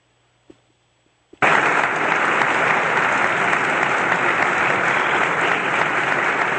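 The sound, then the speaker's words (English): Faint metallic clicks from a sheriff's boot spurs come first in near silence. Then an audience suddenly erupts into loud, dense applause, which holds at full strength to the end. “You're going to hear me walking out. You'll very clearly hear the spurs. And again, I'm in the sheriff getup, and you'll hear the audience's reaction.”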